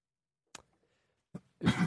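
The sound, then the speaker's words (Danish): A person coughs: two short, sharp coughs followed by a longer, rougher burst. All three are faint and separated by brief silences. “Du hostede lige igen der.”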